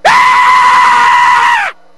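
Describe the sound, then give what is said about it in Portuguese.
A man screams in fright: one loud, shrill, steady cry lasting under two seconds that ends abruptly, with no other voices. “Ele gritou. Não, mas ele gritou não, porque ele achou tão feio que tomou um susto”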